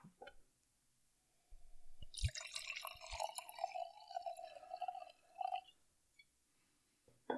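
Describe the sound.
Sake poured into a glass from a 720 ml bottle: a steady liquid stream and gurgle lasting about four seconds, with soft drips and a faint knock near the end and no talk.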